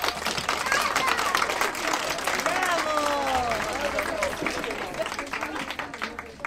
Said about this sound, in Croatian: Evo, pljesak!